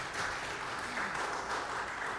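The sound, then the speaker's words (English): Applause for a praise team at a Sunday morning church service, with many hands clapping in a dense, steady stream at moderate loudness. “Let's give another round of applause to our praise team this morning.”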